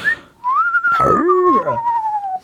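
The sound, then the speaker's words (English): A person whistles an eerie, drawn-out wolf whistle: a short high note, then a swooping rise into a long tone that slowly sinks in pitch, loud and alone. “Ghost whistle? Ghost wolf whistle. Yeah. I'll take a wolf whistle too.”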